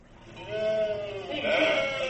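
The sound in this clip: People imitate sheep bleating during a nativity play rehearsal: sustained, wavering, nasal bleats that overlap and swell twice, moderately loud, with no other talk.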